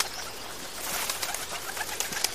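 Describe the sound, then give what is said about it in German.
A pigeon coos a few times over a steady, hissy background, with the calls rising faintly out of the noise. “Da, ein Vogel.”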